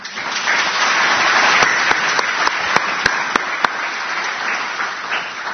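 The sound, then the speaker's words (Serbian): Audience applause at an award ceremony, honouring the two women who founded the award's fund. Dense, steady clapping fills the whole clip, and a run of eight sharp, evenly spaced claps stands out midway. “Molim vas pre svega jedan aplauz za njih dve.”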